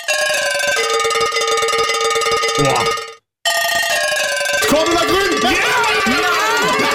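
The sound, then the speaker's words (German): Cowbells ring out the tune of an Oktoberfest party hit, with bright sustained bell tones in a bouncy rhythm. A brief silent break falls midway, and the playing then resumes with voices joining toward the end. “Wir haben einen Kuhglockenspieler beauftragt, ein paar der größten Partyhits einzuspielen, die man jedes Jahr auf dem Oktoberfest hört.”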